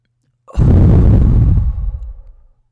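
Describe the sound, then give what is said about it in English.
A deep belly breath let out in one long, loud, breathy rush of air that lasts about two seconds and trails off at the end, alone with no talk. “Let's take a deep breath into our belly. We're going to hold it for 5 seconds and then exhale.”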